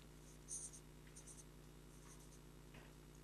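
Faint pen scratching as someone takes handwritten notes: a few light, short strokes over a low steady hum.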